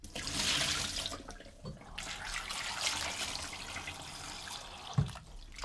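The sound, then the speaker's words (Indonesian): Water splashing and running as peeled sweet potato pieces are put into it, with a few sharper plops among the steady wash of water. “Setelah mengupasnya, langsung masukkan ubi ke dalam air agar tidak berubah warna karena terkena udara.”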